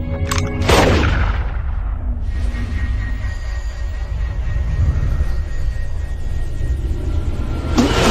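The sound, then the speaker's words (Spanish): A gunshot fired at a target: a sharp, loud crack near the start and another near the end, set against a continuous rumbling, noisy background. “Muy bien, dispara al blanco.”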